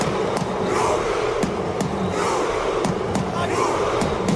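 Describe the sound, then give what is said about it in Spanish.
Norwegian football fans perform the Viking rowing chant, a dense roar of crowd voices broken by repeated sharp, percussive accents that land at a fairly steady pace throughout. “Ahí está, el famoso remo vikingo que está enamorando a medio mundo.”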